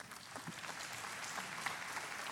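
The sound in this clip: Audience clapping: a faint, dense, even wash of many hands applauding, steady for about two seconds with no voices on top.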